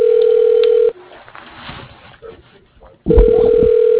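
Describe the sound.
A steady telephone tone on a call to Pepco drops out for about two seconds of softer, murky sound, then returns with a few low thumps.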